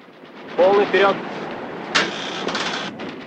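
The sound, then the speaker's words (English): Warship gunfire in a radio drama, the Soviet ship Maxim Gorky firing on a Dutch boat. A voice comes first, then two sharp, loud blasts follow in quick succession, the second trailing off in a short rumble. “The Maxim Gorky wheels, firing on the Dutch boat.”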